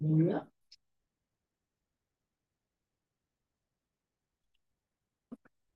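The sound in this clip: A few faint computer mouse clicks: one sharp click follows a brief voice, then after a long silence a quick double click comes near the end.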